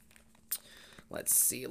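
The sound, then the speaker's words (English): Tarot cards being flipped over and leafed through while searching for one card: a few brief papery rustles, then a louder swishing slide, with a voice starting up at the end. “So I'm going to flip my deck over, and I'm going to go look for that Ten of Cups, and we're going to see what surrounds that for you.”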